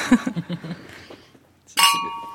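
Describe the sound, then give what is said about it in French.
Wine glasses clink in a toast over a whole-bunch Cabernet Franc from Saumur. After a short stretch of talk and a quiet pause, a single bright clink rings out and lingers. “Je vous propose de trinquer.”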